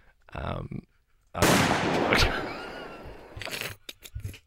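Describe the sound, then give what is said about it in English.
A gunshot sound effect bursts out as one loud, sharp blast with a long, rough decaying tail. Brief vocal sounds come just before and after it. “Oh, you only shot my shoulder.”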